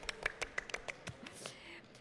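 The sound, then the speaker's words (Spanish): A quick run of faint, scattered hand claps from the public at a live comic convention, each sharp and separate. “¡Tenemos público! ¡Un aplauso bien, para el un público! ¡Un aplauso!”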